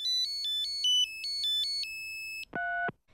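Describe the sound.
An electronic telephone ringtone plays for a call to an adult: a quick run of high, melodic beeps, then a held tone, then a brief lower-pitched tone just before the end.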